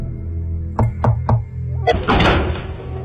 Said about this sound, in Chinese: 他带了洪亮、乔泰、马荣三个人到那茅屋的门前开始敲门